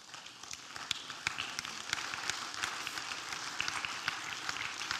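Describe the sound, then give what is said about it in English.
An audience claps in a faint, scattered way, with sparse individual hand claps standing out over a soft, noisy background. “Yeah, I know how that clapping goes.”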